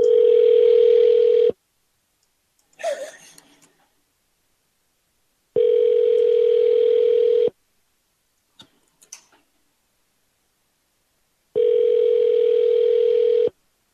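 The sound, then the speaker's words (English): Ringback tone of an outgoing telephone call: three evenly spaced rings, each a steady tone lasting about a second and a half, separated by long silences with a few faint clicks, loud and with no voices. “We got some rapid ringing.”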